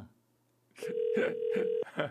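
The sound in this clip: A steady ringback tone from an outgoing phone call that goes unanswered, sounding for about a second. Short bursts of talk break over the tone.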